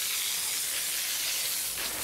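Water sprays onto an animal keeper's floor to soak it for cleaning, a steady, bright hiss that holds at even loudness throughout with no voices.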